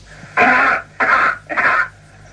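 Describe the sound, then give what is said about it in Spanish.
A cough as it would sound on Mars, picked up by a microphone: three loud, rasping bursts of similar length, separated by short pauses. “la segunda parte del tosido es tal y como lo escucharíamos en Marte con este micrófono. O sea, la primera entrada es la tos en la Tierra.”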